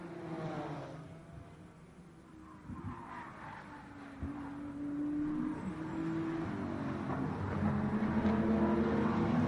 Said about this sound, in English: side by side behind, coming over the hill again. BMW versus Supra. This has been a cracking battle for...